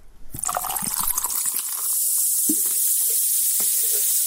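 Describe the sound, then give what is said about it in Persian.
Soda fizzing, the familiar sound used in soft drink ads: a short pouring splash gives way to a steady, bright hiss of bubbles, broken by a couple of faint pops. “این صدای آشنا که بعید است بعد از شنیدنش در یک روز گرم تابستان هوس نوشابه نکنید، برای تبلیغات نوشابه‌های مختلف استفاده می شود.”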